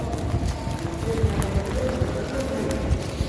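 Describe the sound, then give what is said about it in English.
Rows of people run together inside a large prison: a dense, continuous patter of many footfalls, brisk and steady throughout. “What you're hearing there is just rows and rows of people running.”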